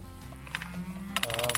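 Cattle lowing in a farm field: a drawn-out, low moo from the herd, followed by a brighter, harsher call near the end.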